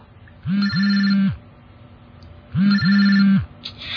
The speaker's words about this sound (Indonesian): Karena suara getar dan dering di handphoneku.